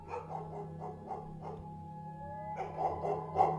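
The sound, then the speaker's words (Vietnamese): Several dogs lying in a yard spring up barking at night: a quick run of fairly faint barks, a short pause, then more barking toward the end. “Đang lúc cáu bẳn thì đột nhiên mấy con chó đang nằm ở ngoài sân nhà ông nhổm lên sủa inh ỏi.”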